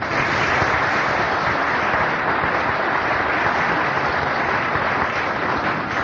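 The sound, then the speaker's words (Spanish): Sustained applause from an audience at a Gnostic association gathering, a dense, even crackle of many hands clapping that stays loud and steady without a break throughout. “Veracruz, para quien pedimos un gran aplauso por su colaboración”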